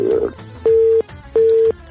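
Busy tone after a phone call is cut off: two even, mid-pitched beeps of equal length with a short gap between them, following a brief burst of mixed noise.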